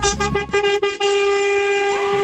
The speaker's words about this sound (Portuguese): Aí, ó, buzinaço!